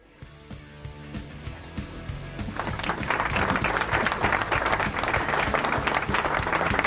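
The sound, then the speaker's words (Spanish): Applause from a small group swelling in over a musical backdrop, scattered claps building into dense, steady clapping that stays loud to the end, with no talk. “Gracias, ¿aplausos?”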